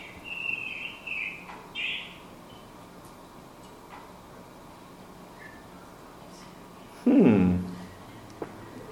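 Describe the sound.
Birdsong: a few short, bright chirping phrases in the first two seconds, faint over a steady low background hiss, followed by a long quiet stretch and one dull bump near the end.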